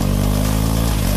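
A BMW motorcycle engine revs in a short, loud burst, a steady throaty drone with strong low harmonics and no other sound.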